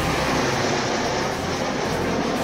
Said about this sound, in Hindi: Surya Kiran aerobic team के 9 hoc MK-132 विमानों ने एक साथ उड़ान भरी।